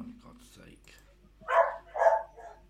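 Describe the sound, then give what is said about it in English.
A dog barks a few times in the background after a short stretch of talk, with sharp mid-pitched yaps close together, the first two the loudest and a softer one trailing after. “That's my dog in.”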